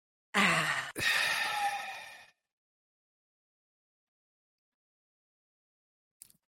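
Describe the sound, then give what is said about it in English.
A deep breath drawn in during a guided breathing exercise, a long airy rush lasting about two seconds with a brief break partway through, followed by quiet and a faint short sound near the end. “Take a deep breath in.”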